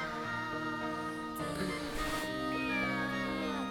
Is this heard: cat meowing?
yes